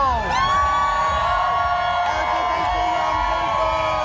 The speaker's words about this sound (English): Everybody cheer for LGBT young people!